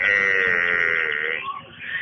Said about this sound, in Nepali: कति कराएको यो भैँसीको पाडी, आमाको पछि पछि आइजो न